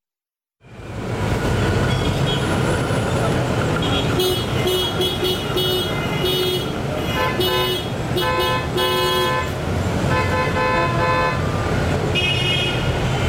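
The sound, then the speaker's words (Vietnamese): Car horns honking in busy street traffic, many short and longer toots of varied pitch over a steady roar of engines. “Thưa quý vị, chúng ta vừa nghe những âm thanh phải nói là rất quen thuộc trên đường phố phải không ạ? Đó chính là tiếng còi xe.”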